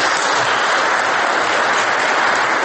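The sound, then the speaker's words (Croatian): Committee members and guests at an assembly applaud, a dense, even wash of clapping that holds at a steady, fairly loud level throughout. “Zaključak koji je nagrađen aplauzom članova odbora, dakle predstavnika vlasti i gostiju iz regiona, bez jednog izraza negodovanja.”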